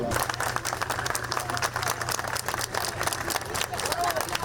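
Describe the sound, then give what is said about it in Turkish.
Applause greets students finishing a university entrance exam session: steady, dense clapping that holds at an even level throughout, with crowd voices mixed into the noise. “Milyonlarca öğrenci TYT oturumunu tamamladı. Alkışlarla karşılandı.”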